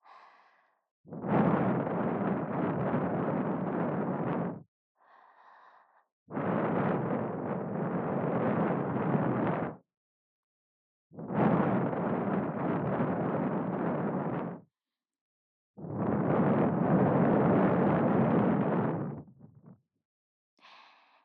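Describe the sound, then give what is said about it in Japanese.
Strong breath blown directly onto a microphone in four long, rushing gusts of about three seconds each, separated by short pauses that hold faint, softer breaths. “今度は強めに吹いていきましょう。”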